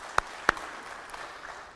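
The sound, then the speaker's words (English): Two sharp, separate hand claps ring out in a church audience as a clap of praise, quiet and isolated over a faint hush. “If you believe it, let's give him a hand. Hand clap of praise.”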